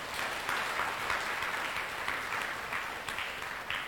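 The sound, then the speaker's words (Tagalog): An audience applauds the Lord during a church sermon, producing fairly faint, dense, continuous clapping that holds a steady level throughout. “Pwede bang palakpakan natin ang Panginoon?”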